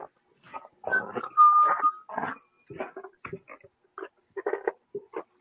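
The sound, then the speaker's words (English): Pig-like grunting: many short, rough snorting bursts in an uneven rhythm, with a few higher squeaky, whining tones mixed in among the low grunts. “what the hell is that? Sound like a pig.”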